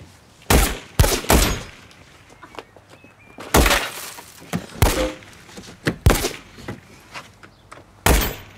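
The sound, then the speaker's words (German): Gunfire in a police drama scene where a policewoman is shot at: many sharp, loud shots crack out in irregular bursts with short gaps between them. “Er schießt die Bullenschlampe, er schießt die Schlampe ab!”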